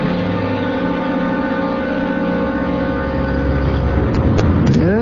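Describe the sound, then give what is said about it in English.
A car drives along with a constant engine hum. The low, droning note stays steady and loud throughout, with a few faint higher chirping tones near the end. “Yeah, we'll take a drive down.”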